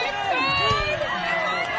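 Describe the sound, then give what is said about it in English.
Crowd yelling at a log-chopping contest: a short burst of many overlapping shouting voices, loud and continuous. “The crowd is yelling, "Don't let the dark side win." And also free the nipple.”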